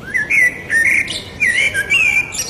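Birds singing around a quiet, green garden plot, with clear, high-pitched whistled chirps and warbling phrases repeating in short bursts.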